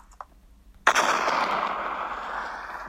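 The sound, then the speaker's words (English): A single explosion bursts with a sharp crack and then rolls into a rumbling roar that fades slowly over about two seconds, after a faint brief click. “there is the sound of an explosion.”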